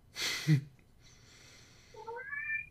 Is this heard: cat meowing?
yes

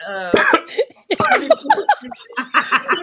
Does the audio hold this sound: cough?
yes

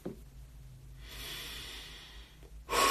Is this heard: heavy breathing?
yes

